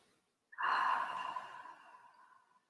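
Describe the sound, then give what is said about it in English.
One deep breath in and out during a meditation exercise: a single breathy rush that starts abruptly after a short silence, then slowly fades away as an airy exhale, with no talking over it. “Take a deep breath in with me. Exhale out.”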